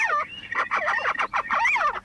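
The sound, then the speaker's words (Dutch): Two little owls calling at their nest, a rapid run of short, squeaky yelps and warbling chatter notes, fairly loud and alone. “Ik zie een hele mooie steenuil. Oh, twee steenuilen. De eentje gaat eruit. Die ander blijft erin zitten. Wordt druk gepraat.”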